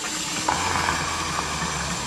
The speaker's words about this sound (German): Komm, lass heißes Wasser nachlaufen.